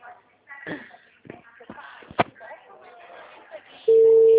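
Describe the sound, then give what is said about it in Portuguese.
A telephone being called again on the same line: rustling and a few sharp taps of handling come first, then a steady, unbroken ringing tone starts and holds loudly to the end. “Tô ligando de novo, da mesma linha.”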